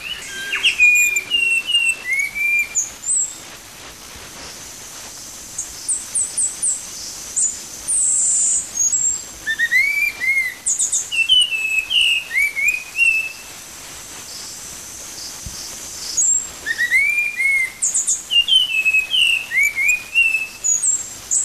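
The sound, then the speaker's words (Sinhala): Song of the Spot-winged Thrush, a bird endemic to Sri Lanka: clear, high whistled phrases with quick slurred notes, repeated in bursts with short pauses between them, over a faint background of other chirps. “දැන් මේ හඬ තුළ විශේෂ කුරුල්ලෙක් ලංකාවට ආවේනික වූ පුල්ලි වල්ලවිච්චයාගේ හඬ ගීතය මේ නාද ඛණ්ඩය තුළ තිබෙනවා. අපි ඒක වෙනම සවන් දෙමු.”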